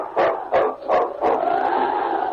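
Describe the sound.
Sled dogs barking in the snow near a settlement: four sharp barks in quick succession, then a drawn-out, steady cry that carries to the end.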